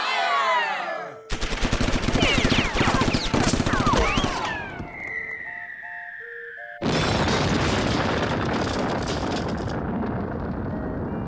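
Gunfire and explosions as a sound effect: dense, loud bursts of rapid shots and booming blasts, then a brief lull filled with whistling tones before another long barrage of heavy fire.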